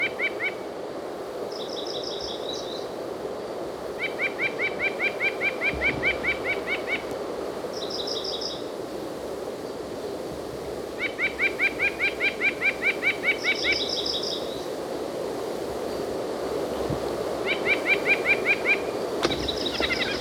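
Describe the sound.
A white-breasted nuthatch calls in repeated bursts of rapid, high, nasal notes, with shorter and higher calls between the bursts, all over a steady low background noise. No one speaks.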